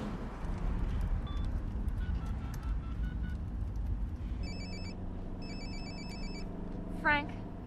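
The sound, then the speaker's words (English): A mobile phone dialled from a car driving through the streets of Los Angeles: a few short keypad beeps, then two long trilling ring bursts, all over a steady low rumble of the car engine and road. “Jack drives through the streets of LA. He dials on his mobile.”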